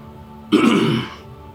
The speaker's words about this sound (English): this elf resplendent in robes of silver clears his throat